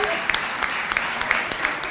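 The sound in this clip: Applause for the event staff at a gathering: steady clapping continues while a voice speaks over it.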